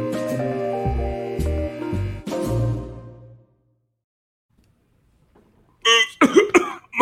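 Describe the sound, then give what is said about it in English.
Dry, harsh coughing and throat clearing from a parched throat: a few rough bursts come near the end, after a tonal passage and a stretch of silence. “I need a second because all the choking going around, it just has my throat dry.”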